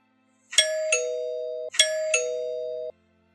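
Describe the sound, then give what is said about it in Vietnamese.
A gate bell rings with two loud ding-dong chimes. Each chime is a bright, higher note followed by a lower, sustained note, and the two rings sound back to back with silence around them. “Có tiếng chuông cổng vang lên, bà Giang gọi bác An.”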